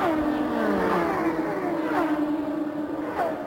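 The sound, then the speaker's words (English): IndyCar race cars roar around the Indy 500 oval through turn two, their high engine whine steady and loud, with a few passing cars sweeping down in pitch. “He is using as much racetrack as I have ever seen. In fact, Rick and his teammate, Emerson Fittipaldi, almost had their left side tires in the grass negotiating turn two.”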